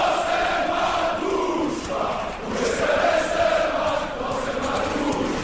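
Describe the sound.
Crowd cheering and shouting at a village sports ground, a sustained loud roar of many voices that dips briefly and then swells again.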